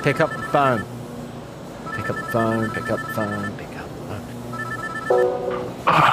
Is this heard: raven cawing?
no

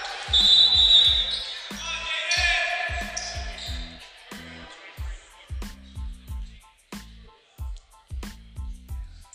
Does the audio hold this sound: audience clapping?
no

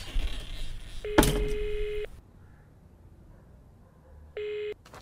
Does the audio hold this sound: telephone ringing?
yes

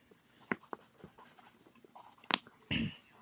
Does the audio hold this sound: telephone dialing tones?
no

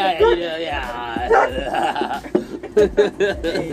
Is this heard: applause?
no

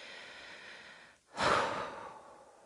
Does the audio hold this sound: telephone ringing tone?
no

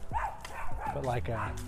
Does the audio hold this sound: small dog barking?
yes

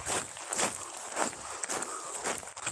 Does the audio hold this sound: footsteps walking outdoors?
yes

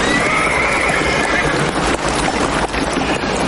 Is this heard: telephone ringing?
no

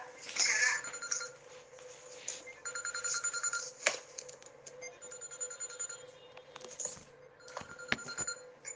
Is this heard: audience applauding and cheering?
no

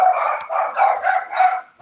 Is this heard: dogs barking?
yes

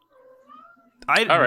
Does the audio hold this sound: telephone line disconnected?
no

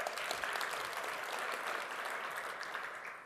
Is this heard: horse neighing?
no

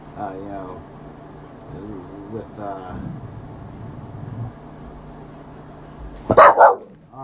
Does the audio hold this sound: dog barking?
yes

